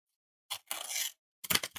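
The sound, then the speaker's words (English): An envelope being opened, giving a papery tear and rustle in two quick bursts split by a short pause, crisp and fairly loud against silence. “I'm just going to open the envelope here, as is our tradition here on the Transfer Window podcast.”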